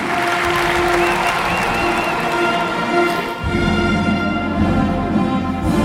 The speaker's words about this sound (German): Sag jetzt einen riesen Applaus.